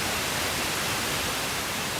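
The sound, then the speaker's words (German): A radio receiver tuned to 90.25 MHz with no clear station gives a loud, steady, unbroken hiss of static, with no voices. “Ich drehe jetzt hier am rechten Sendersuchrad. Sie hören 90,25 MHz. Genau, dann kriege ich halt unter Umständen nur Rauschen.”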